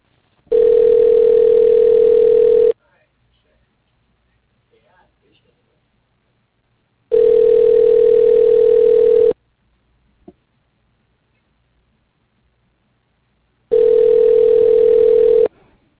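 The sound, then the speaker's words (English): Ringback tone while a call is transferred to a record company extension: three long, steady tones of about two seconds each, separated by roughly four-second silences. “please hold while your call is being transferred to Jeannie Genter.”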